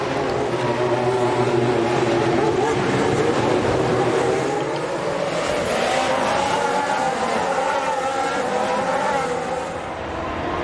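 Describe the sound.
Formula 1 race cars accelerating at a restart behind the leading car, a dense, continuous engine roar whose pitch climbs through the middle and holds loud to the end.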